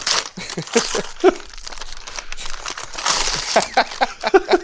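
Paper and cardboard crinkling and tearing as a thoroughly stapled package holding chocolate muesli is unpacked, with many irregular rustles, rips and crunches.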